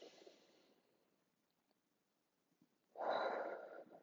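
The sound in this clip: Deep breathing during a relaxation breathing exercise: two breathy rushes of air, a softer one fading at the start and a louder, fuller one swelling near the end, with near silence between.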